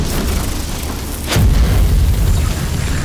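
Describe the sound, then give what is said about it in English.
A T Rex shaped flame attack colliding with an ice sword in an animated battle: a sudden whooshing burst gives way to a loud, sustained low rumbling roar. “A T Rex shaped flame was formed and charged towards General Abi. However, the fire attack collided with Rachel's ice sword halfway. The power of water and fire collided violently”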